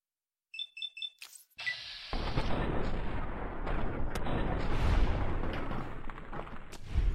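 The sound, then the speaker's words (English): Grenade explosions in a video game: a few quick, high electronic beeps, then a loud blast that opens into a sustained, rumbling roar with sharper cracks scattered through it. “Oh, man, those grenades are so much better than bullets.”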